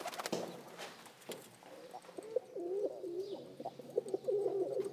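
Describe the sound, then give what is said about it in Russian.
Pigeons cooing on an iron windowsill: a few sharp taps at the start, then repeated low, warbling coos that grow fuller and keep going to the end. “На железном подоконнике несколько голубей.”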